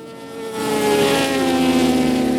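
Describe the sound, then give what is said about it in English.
Motorbikes and cars racing at a track: a continuous engine roar that swells after a brief moment and holds as a loud, steady drone with a whining upper edge. “I gotta admit, not all those are bikes. Some of those are cars. And you'll hear them both.”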